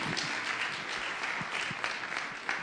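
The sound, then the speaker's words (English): An audience applauds to welcome a speaker: steady, fairly faint clapping from many hands forms a continuous patter throughout. “So I wonder if you'd put your hands together and welcome Dan.”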